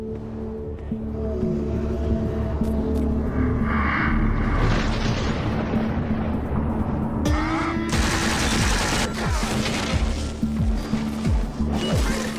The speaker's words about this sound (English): Zombies have guns? They do now. In Fallout, these are ghouls.